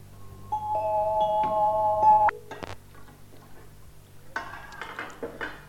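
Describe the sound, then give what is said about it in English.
A saucepan lid comes off with a sharp metallic clank after a steady high tone, then lighter clinks and clattering of metal follow. “Put that cover back immediately. You know how I hate it when you eat from the saucepan.”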